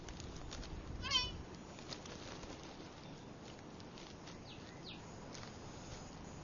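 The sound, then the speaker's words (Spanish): A lost white-tailed deer calf bleats for its mother in dense mangrove thicket in the Florida Keys. One short, high bleat stands out over a steady hiss, with fainter calls after it. “Un ternero se perdió en la espesa maleza de los manglares. Llama a su madre una y otra vez.”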